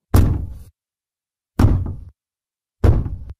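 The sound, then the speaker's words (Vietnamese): Knocking on a wooden door: three heavy, separate knocks with deep, thudding bodies, spaced more than a second apart, each ringing briefly before stopping, alone in silence. “Bỗng nhiên tiếng gõ cửa vang lên từng tiếng một.”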